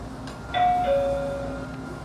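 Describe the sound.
A two-tone electronic chime announces a train's arrival at a station; the second note sounds slightly lower than the first, and both ring out moderately against a quiet background hiss.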